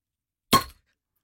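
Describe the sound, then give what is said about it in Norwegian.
A single crisp pop as a beer bottle with fairly low pressure is opened, a short bright burst that fades quickly, alone against silence. “det ikke så høyt trykk I ølflaskene. Nei. Men de har en veldig sånn, de skal liksom åpne seg med en sånn, veldig fin lyd.”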